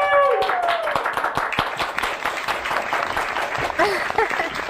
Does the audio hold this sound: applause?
yes